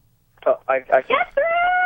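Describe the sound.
A woman yells at a baseball game, coming through a phone call: four short, loud voiced bursts in quick succession, then one long, steady held cry that lasts to the end.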